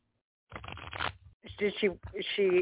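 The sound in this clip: A deck of cards riffles in a short burst of soft papery shuffling during a card reading, followed by a person talking.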